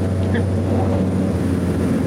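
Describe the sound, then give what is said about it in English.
A nine-seater propeller plane takes off, its engines making a loud, steady, broad droning roar with a strong low rumble that holds at an even level throughout. “I took a 9-seater prop plane to get there. Wow, it sure gets off the ground quick compared to the big planes, hey?”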